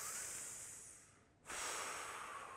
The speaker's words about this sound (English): Breathe in. Breathe out.